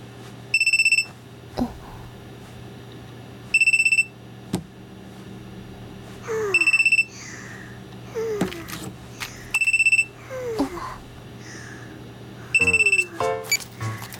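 A telephone rings in five short bursts of high electronic tones, evenly spaced, with fainter scattered sounds filling the gaps between rings.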